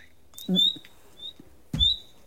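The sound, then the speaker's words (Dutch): High, thin whistled lure calls of a bird at dusk, a few short notes repeated with gaps, alongside low soft thumps and rustling. “Dat is de lokroep. Wat lief, dit is de lokroep.”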